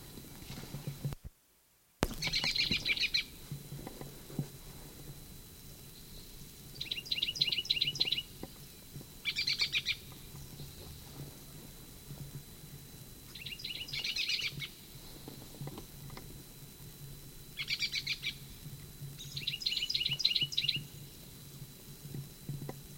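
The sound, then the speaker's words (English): Bird song made of short, high, rapid trilled phrases, about six of them spread out with pauses between. The phrases sit over a steady low rumble in the background. “Evidently the Blomqvist bird.”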